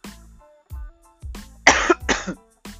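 Harsh coughing and throat clearing from one person with something caught in the throat: a few low, rough throat sounds, then two loud, raspy coughs in quick succession, with no talking.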